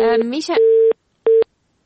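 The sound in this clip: Telephone line tones follow a call to a radio show that has dropped. A brief voice is heard first, then a long steady beep and, after a short gap, a second shorter beep at the same pitch.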